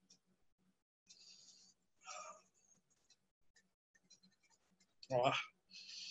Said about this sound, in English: Here's my pomegranate. I'm going to just cut it.